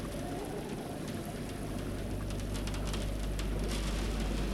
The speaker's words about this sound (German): Der Regen klatscht gegen die Scheibe.